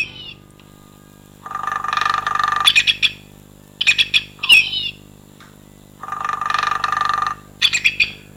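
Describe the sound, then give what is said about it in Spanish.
A woodpecker calls: harsh squawking notes mixed with buzzy, rattling bursts. They come in a few separate bouts with quiet gaps between them, and no voices. “ese tamborileo, eso está en un pájaro carpintero, creo que hace es marcar el territorio”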